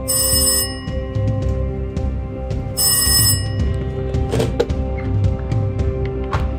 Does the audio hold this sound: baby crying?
no